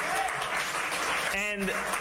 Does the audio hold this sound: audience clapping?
yes